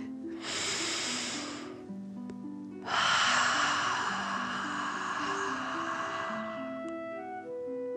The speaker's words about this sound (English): Breathe in through your nose and breathe fire out of your mouth. Again, deep breath in and out.